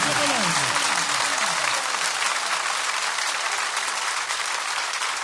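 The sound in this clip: A crowd at a religious gathering honouring Imam Hasan claps loudly and continuously. The dense hand clapping runs without break throughout, and a singing voice rises over it during the opening seconds.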